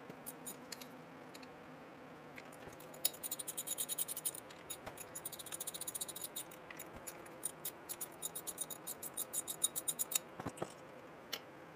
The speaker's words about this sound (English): All right, so just taking out the cap screws